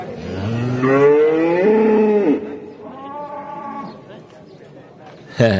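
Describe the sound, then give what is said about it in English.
Cow mooing, a long, loud drawn-out low call followed by a softer second moo, then a brief sharp noise at the end. “Oh, listen to that sacred cow there in the background. Yeah. The beautiful mother cow.”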